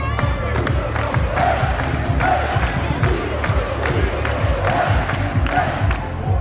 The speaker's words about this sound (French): La coupe vient d'apparaître sur scène, sous les ovations du public.